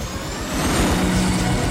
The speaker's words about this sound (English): The rotor blades start to turn.